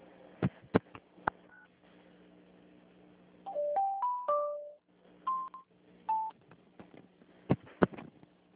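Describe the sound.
Telephone tones sound while a call is transferred: a few sharp clicks, then a run of short steady tones stepping upward in pitch, followed by a couple more tones and clicks over a low line hum.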